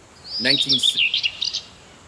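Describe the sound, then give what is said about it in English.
A small bird chirps in a quick run of high, bright notes, some sliding, lasting about a second and a half before silence. “Little bird right there.”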